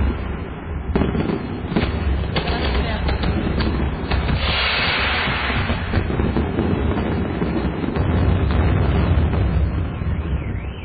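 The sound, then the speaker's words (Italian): Gunpowder explosions go off one after another in a dense, loud stream of cracks and booming bursts. They continue without a break for the whole stretch and swell slightly toward the end. “C'è il rumore della polvere da sparo.”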